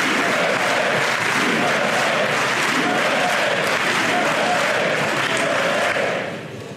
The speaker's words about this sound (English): I do USA, USA. Wrong. Do you think that chant would ever be heard in a Democrat convention?